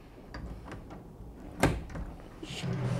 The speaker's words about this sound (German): Bitte öffnen Sie doch mal Ihren hübschen großen Schrankkoffer dort.